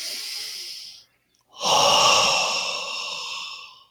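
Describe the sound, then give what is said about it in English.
A deep belly breath: a steady inhale, a short pause, then a longer, louder, breathy exhale that slowly fades away, heard alone without talk. “it's usually this deep belly breath comes through, like,”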